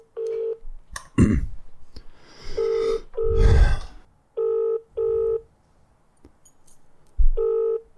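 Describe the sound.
A telephone call to a business to order pizza: short keypad dialing tones, then repeated steady ringback beeps in evenly spaced bursts, broken by a few loud breathy rustling noises between them.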